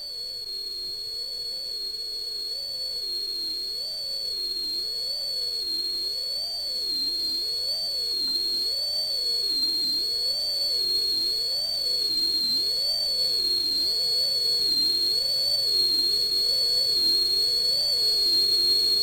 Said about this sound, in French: J'ai une petite virgule, sifflet, c'est parti.